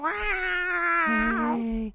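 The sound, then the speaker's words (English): A cat gives one drawn-out, tonal meow lasting about two seconds, loud and clear, its pitch holding steady and then dropping lower and wavering in the second half. “That's a cat. I know, I hear it.”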